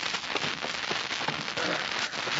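A fire crackles in a fireplace on a cold night, a dense, steady stream of small snapping pops and hissing crackle holding at an even level throughout, with no talk over it.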